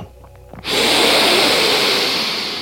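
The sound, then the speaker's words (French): A deep inhale during a yoga breathing exercise: a loud, forceful breathy hiss begins abruptly and holds steady for about two seconds, easing off slightly at the end. “On inspire.”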